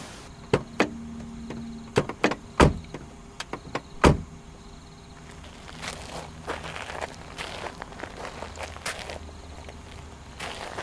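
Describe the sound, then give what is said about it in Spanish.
Clunks and clicks of people getting out of a vehicle, with several loud knocks in the first four seconds, followed by a run of softer footsteps moving toward a two-storey house. “Hemos descendido del vehículo. Nos movemos hacia una casa de dos plantas.”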